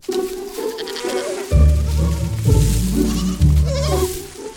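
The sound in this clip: Sheep bleat near a grazing flock and its shepherd, a few loud, wavering calls over a constant buzz of insects.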